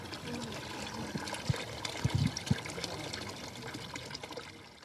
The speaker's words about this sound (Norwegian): Vannhenting i Kibera. Plastkanne etter plastkanne fylles og hentes hos Amina Abdallah.